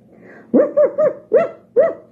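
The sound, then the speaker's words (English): A big grumpy dog tied at the end of a rope barks five times, each bark loud, sharp and harmonic, in a quick uneven run with short gaps and no other sound. “a big grumpy dog came running their way, barking and growling at the end of a rope.”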